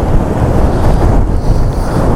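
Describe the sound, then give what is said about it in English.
Strong wind buffets the microphone in a loud, continuous low roar with uneven gusty swells. No other sound is heard. “The wind is not letting up”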